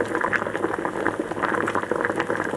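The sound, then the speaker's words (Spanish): A pot of stew simmers on the stove, a dense, steady bubbling and popping of liquid with a soft hiss, lasting throughout. “te voy a invitar a que levantes la tapa del puchero y veas lo que hay.”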